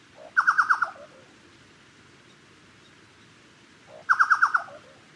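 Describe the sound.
A chucao tapaculo calls in two loud bursts of rapid, throaty repeated notes, each burst trailing off into a short lower note. A few seconds of quiet background hiss separate the two bursts.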